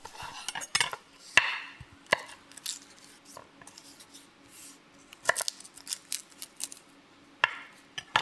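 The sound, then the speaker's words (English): A knife minces five garlic cloves for a miso mushroom pasta. The cutting comes as quiet, irregular, sharp strikes, some in quick clusters and others separated by short gaps. “let's get to mincing some garlic. Now, this will probably take a while. I'm probably going to fast forward this tape, but here it is.”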